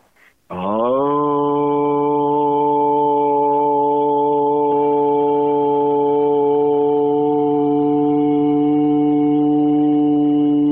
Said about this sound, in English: Toning, however, like I'll just put out one word, you know, the first word from an Aramaic prayer sounds like this, Aun. And I'm just going to make one simple sound.